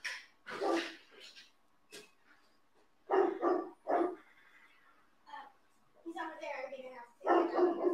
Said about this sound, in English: Tell that person, do not go in our backyard. We have dogs. My dogs are doing exactly what they're supposed to be doing.